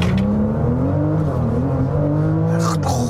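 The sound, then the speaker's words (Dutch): Car engine at full throttle during a launch-control start, with an eight-speed automatic gearbox. A loud, sustained engine drone sits over a continuous road and wind roar throughout. “Meteen launch control doen. Rustig dan. Oké. Voet rem, voet vol gas.”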